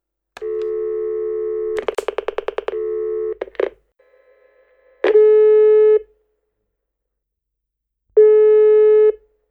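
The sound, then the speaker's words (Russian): Telephone call tones: a steady tone, then a rapid run of about ten dialing clicks and a few short bursts, followed by two long, even ringback tones separated by silence, clear and alone. “Осталось только позвонить маме.”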